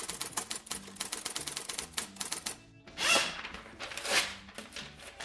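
Typewriter keys clack in a fast, steady run of many crisp strikes at a travel agency desk, then stop briefly before two louder, longer mechanical bursts follow.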